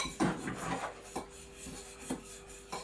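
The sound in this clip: A fork mixes a gooey mixture in a series of soft, irregular scraping and rubbing strokes, some slightly louder than others, fairly faint throughout with no voices.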